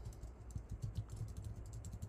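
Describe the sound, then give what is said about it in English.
Rapid typing on a computer keyboard, with many quick, soft key clicks in an uneven, continuous rhythm. It is faint and there is no talking. “And I'll type that in here now.”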